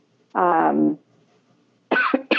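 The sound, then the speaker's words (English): Coughing from a person with a persistent cough that flares after talking a lot: one drawn-out, voiced, throaty cough, then a short gap and a couple of quick, sharp coughs. “I have developed this cough, which when I talk a lot,”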